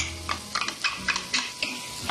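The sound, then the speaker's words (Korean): Stirring of onions, garlic and green pepper frying in olive oil in a pan over medium heat: many light scraping strokes in an even rhythm over a soft sizzle. “And we stir.”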